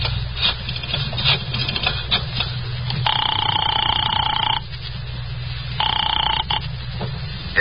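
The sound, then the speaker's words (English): A telephone at a drugstore is dialed, a run of light clicks, then two long ringing tones on the line separated by a short gap, heard alone without talk. “I got out and found a telephone. I dialed the Kelsey residence.”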